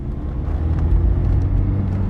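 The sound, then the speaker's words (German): A car drives off from a farmyard in Old Moshi, its engine producing a steady, low, continuous rumble with no distinct events. “In Old Moshi verlassen wir Sablon Kivelos Hof und fahren weiter.”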